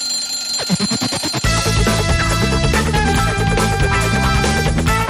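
An alarm clock rings in rapid repeated bursts, then a loud, full musical jingle takes over and carries on to the end.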